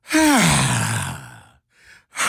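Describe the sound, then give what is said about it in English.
A person's long voiced exhale that falls in pitch and fades, followed by a short breath and another exhale starting. “I'm going to do my exhale”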